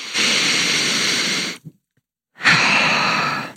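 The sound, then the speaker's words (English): A deep breath: a loud, sustained airy inhale, a short pause of near silence, then a long, breathy exhale of similar loudness, with no talking. “Let's take a deep breath.”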